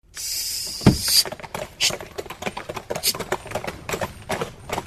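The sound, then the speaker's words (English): A pony cart clattering away, with many quick hoof clip-clops and wheel rattles forming a steady, fairly loud patter that continues throughout. “as the pony cart clattered away”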